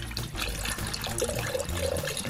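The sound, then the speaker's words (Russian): Water pouring over lingonberries in a pot, two liters going in from a jar: a fairly soft, continuous rushing and splashing that holds steady throughout with no talk. “заливаем нашу бруснику 2 литрами воды”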